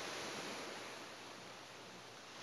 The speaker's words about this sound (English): You get to relax now here on the beach. And just be here with your book, being present. Maybe you're listening to music. Maybe you're just watching those waves.